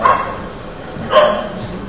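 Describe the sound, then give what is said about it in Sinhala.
A dog barks outside, giving two loud barks about a second apart over a low background hum. “මොන කරදරයක්ද බල්ලෙක් ගුරනවා අපිට බණ අහගන්නත්.”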